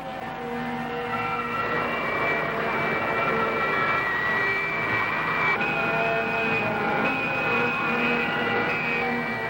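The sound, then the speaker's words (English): Aircraft engine roaring as thrust is increased, a loud, steady drone with a tonal whine whose pitch steps slightly higher about midway. “Ascend. 38 degrees. More thrust. I'll increase the thrust to Mach 80.”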